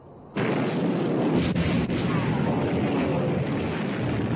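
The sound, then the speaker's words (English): Warship gun turrets open fire with a sudden heavy blast that swells into a loud, sustained rumbling roar, holding steady to the end. “All turrets ready to open fire, sir. Open fire! Fire!”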